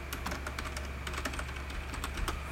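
Rapid typing on a computer keyboard, with many quick, light clacks in an uneven run over a steady low hum. The typing is faint and there is no talk.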